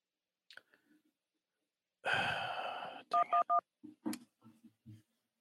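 Telephone keypad tones pressed to accept an incoming call: three short, evenly spaced beeps following a long breathy rush of noise, then a few faint soft sounds.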